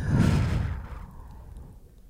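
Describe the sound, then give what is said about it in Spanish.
A deep exhaled breath during a guided breathing exercise: one airy, broad rush of air, loudest at the start and softening over about a second before trailing off. “Vamos a tomar otra respiración súper profunda. Inhala. Permítele a tu cuerpo recibir y exhala.”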